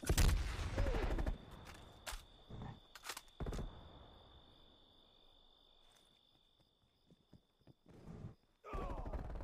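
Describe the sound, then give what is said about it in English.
QBZ rifle fire in a video game: loud cracks fired in short bursts, clustered at the start and again in the middle, separated by quieter gaps, while a steady high-pitched tone runs beneath most of the passage. “Why am I burst shooting this? QBZ is fully automatic, right?”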